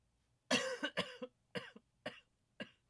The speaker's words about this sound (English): Uh-oh, I think I'm killing my dad. Making you laugh too hard, you're choking.